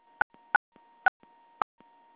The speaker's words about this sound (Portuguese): Digite a sua senha com 4 dígitos.